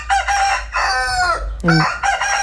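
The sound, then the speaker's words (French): A rooster crows in a rural village enclosure, a loud, harsh, harmonic call broken into a few strained bursts, with one lower-pitched note near the end. “les animaux ont très bien le droit de chanter. On ne restera jamais sans coq.”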